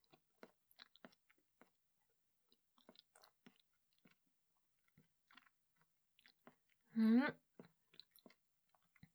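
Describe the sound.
Someone chews a big helping of food with carrots: quiet, soft crunches and wet mouth clicks at an irregular pace, with a brief voiced sound near the end.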